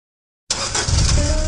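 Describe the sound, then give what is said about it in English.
An old clunker of a car engine kicks in abruptly after a moment of silence, then settles into a deep, steady, rough rumble that carries to the end. “When was the last time you drove that old clunker? It's full of great memories, but let's face it, it has seen better days.”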